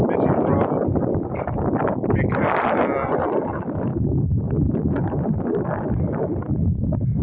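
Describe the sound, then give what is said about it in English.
A cool outdoor breeze buffets the microphone in a constant, loud, rumbling roar that barely lets up across the whole stretch, with no clear gusts standing out. “the wind blows there so much that it just blows them all away. And I think that's what I'm experiencing right now. Because there's a nice breeze out here,”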